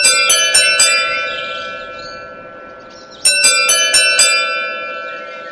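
A doorbell rings at a house behind an iron-barred gate, sounding as two bursts of several bright, tonal chime strikes, the ringing sustained between the strikes.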